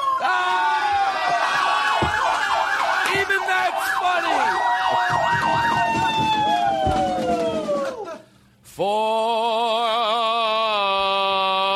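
A police car siren wails loudly in long rising and falling sweeps, drops out briefly, then returns with a faster warbling tone.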